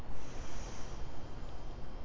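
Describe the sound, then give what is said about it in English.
Deep breath drawn in during a guided breathing exercise, a steady, rushing airflow that holds for about two seconds with slight swells, alone with no voices. “Take a deep breath in. And out. Breath in.”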